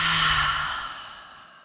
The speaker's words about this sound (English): All right, I think it's time for us to take a deep breath in. Deep breath out.